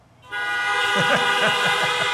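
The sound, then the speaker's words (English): A horn honk sound effect blares as one steady, sustained tone that starts abruptly after a short silence and holds at an even loudness to the end, with a low voice faintly audible beneath it. “That deserves a honk.”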